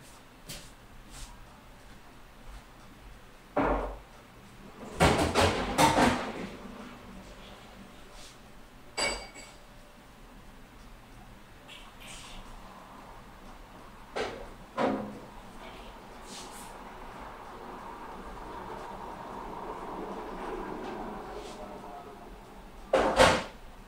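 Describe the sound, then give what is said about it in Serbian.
Someone fetches vodka amid cupboard and glass sounds: scattered knocks, clinks and a louder cluster of bangs early on, then a few more thuds and clinks spread over a faint, steady background. “Mislim da mi je ostalo malo vodke, tako da jednom 20 sekundi pauze idem da uzmem vodku.”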